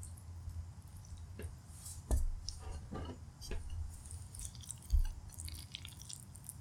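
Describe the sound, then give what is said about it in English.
Chewing on a mouthful of homemade stir fry makes soft, moist crunches and small clicks at an uneven pace, faint and with no talking. “And I guess I should taste all the other stuff that I made. So, I made the stir fry, and let me grab some.”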